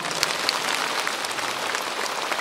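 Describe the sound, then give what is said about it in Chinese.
An audience claps in a dense, even patter of many hands that runs steadily and fairly loud from start to finish, with no voices over it. “鼓掌啊！”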